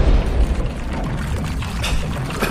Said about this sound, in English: Man, us and grenades. What is it with us and grenades?